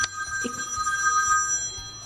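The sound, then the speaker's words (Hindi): A telephone rings with a steady, high electronic bell tone that holds for about two seconds with little change in loudness. “पंटी का phone है मेरे ख्याल से।”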